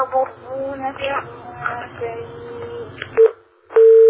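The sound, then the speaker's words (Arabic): A telephone busy tone follows a dropped call: after a stretch of talking, a short beep is followed by a longer, steady, loud tone. “واضح الاتصال انقطع.”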